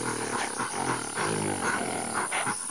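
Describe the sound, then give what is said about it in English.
Roaring of a group of ferocious ape men in a forest: loud, continuous, layered roars and growls that overlap without pause for the whole stretch, with no talk. “Is it another dinosaur? Is it a pterodactyl? No, it's a group of ferocious ape men.”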